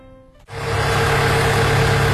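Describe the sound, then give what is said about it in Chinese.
A car engine rumbles into a steady idle after a brief quiet start, then holds a loud, even low drone to the end. “引擎熄灭，并没有下车。”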